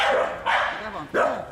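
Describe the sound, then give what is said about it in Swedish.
Dogs barking during a minor scuffle at a dog hotel: three loud, sharp barks with brief gaps between them, each bark rough and harmonically rich. “Och blir ganska upprymd när jag ser en mindre hundkonflikt.”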